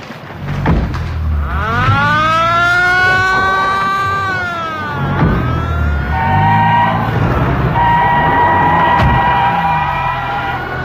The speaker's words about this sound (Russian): Идет машина.